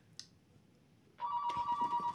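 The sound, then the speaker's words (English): A telephone rings with a loud electronic ringtone: after a quiet stretch with one faint tick, a sustained steady tone starts, then a warbling, pulsing layer joins it and carries on to the end. “We got to pick up the phone.”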